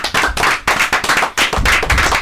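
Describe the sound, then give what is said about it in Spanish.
Clapping from a small group congratulating a community FM radio station on its first anniversary, loud sharp bursts of claps broken by brief gaps. “Le damos un aplauso por el primer año. ¡Bravo!”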